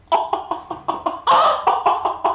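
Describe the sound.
A hen clucks in a quick, rhythmic run of many short, throaty bursts, with one longer, louder cluck in the middle before the clipped pattern resumes.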